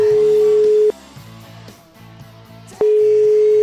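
Telephone line tone while placing a radio phone call: two loud, steady, single-pitch tones separated by a gap of about two seconds, with quieter low sounds running underneath.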